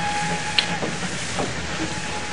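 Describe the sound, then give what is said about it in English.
Steam hiss from a steam train in a London railway station, a continuous broad, rushing hiss that stays steady throughout, with no voices. “It begins in a London railroad station.”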